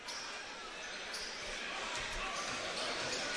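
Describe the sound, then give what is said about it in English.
A basketball is dribbled a few times at the free throw line before a shot in a high school basketball game, the low bounces sounding under constant crowd noise and a voice talking. “Three dribbles and a quick shot up and good.”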